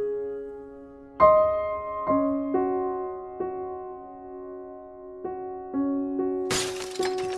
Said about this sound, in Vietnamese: Choang một tiếng. Quân nghe xong câu nói trên thì mất bình tĩnh, ném mạnh chậu ngải xuống sàn nhà. Phần sứ bể nát, đất bên trong văng ra tung tóe.